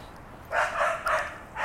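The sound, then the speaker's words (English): A dog on a leash barks a few times in quick succession, short harsh bursts fairly faint over low steady background noise. “sorry about the barking dog. Oh, this guy's coming back this way too. It's a crazy looking dog, at least it's on a leash.”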